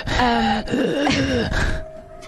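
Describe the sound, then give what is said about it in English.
A voice imitates a horrible wheezing as a creature sound in a tabletop role-playing game. It comes as a few strained, groaning breaths with gliding pitch, loud at first and trailing off into quiet. “you hear a horrible wheezing.”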